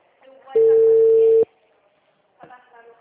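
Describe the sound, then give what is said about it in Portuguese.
An unanswered phone call rings out as one steady, loud electronic tone of even pitch, lasting under a second, with soft talking before and after it. “Liguei duas vezes. Chamada encaminhada para a caixa postal.”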